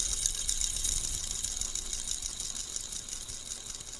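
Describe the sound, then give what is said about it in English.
A fidget spinner spinning close to the microphone, producing a soft, steady high whir that holds evenly from start to finish with no voices. “do you prefer when the fidget spinner, hold on, spins really close?”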